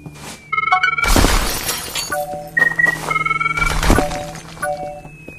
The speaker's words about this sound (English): There's the wall. Let me throw rocks at it.